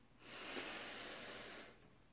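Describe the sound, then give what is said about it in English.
A person takes one slow, deep breath in as part of a guided breathing exercise. It is a soft, airy hiss that lasts about a second and a half and is heard alone at low volume. “So let's just take a big deep breath in”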